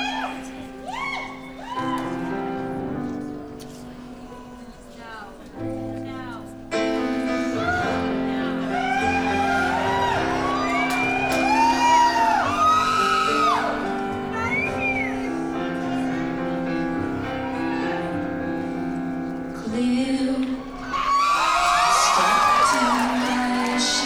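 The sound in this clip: Audience member whooping during a live concert performance at the Beacon Theater in New York City, a loud shout rising above steady, full music that plays throughout.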